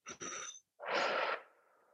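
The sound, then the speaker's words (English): Forceful exhales blown out through the mouth during a guided breathing exercise, like blowing out candles: a short breathy burst, then a longer, louder rushing breath that trails away softly. “pull your belly to your spine and exhale like you're blowing out candles with the intention of emptying yourself of everything that's inside you holding on and lockdown”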